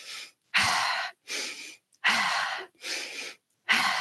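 Deliberate, paced breaths from a breathing exercise using belly and chest: loud, airy inhales and exhales in an even rhythm, each separated by a short silence.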